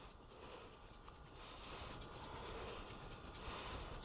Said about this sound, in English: I'm going to season generously with salt and pepper. And that means, you know, don't be shy about it. Give it a lot of good shakes.